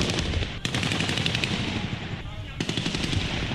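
Gunfire during the 2015 coup in Ouagadougou: sustained automatic bursts of rapid, sharp cracks, loud and dense, with one short lull partway through before the shooting resumes.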